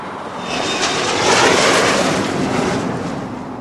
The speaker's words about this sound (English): Okay, now here's a recording of the aircraft which could replace the A-10 here, the F-35.